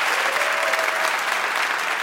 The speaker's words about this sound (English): Can we give one more hand to all our audience presenters tonight? Really great job. Thank you, folks.